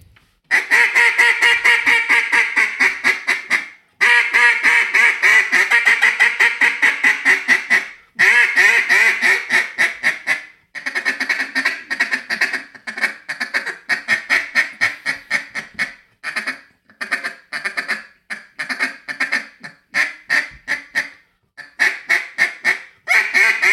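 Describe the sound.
Hand-blown duck call imitating mallard quacks, starting with a loud attention-getting series, then working into rapid feeding chatter with short pauses between runs during a duck calling session in Arkansas.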